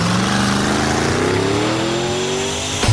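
A car driving very fast, its loud engine whine climbing steadily in pitch as it accelerates, ending in a brief sharp burst.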